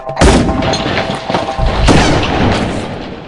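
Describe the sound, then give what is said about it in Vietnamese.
Gunshots during an ambush at the edge of a forest: a few loud, booming cracks with a heavy rumble that lingers between and after them. No voices are heard. “Vài tiếng súng nổ xé tan cái yên tĩnh của thiên nhiên”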